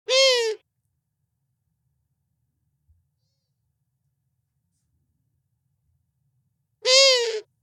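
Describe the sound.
Two sharp, strongly harmonic calls from a female owl, one at the very start and one at the end, with long silence between them.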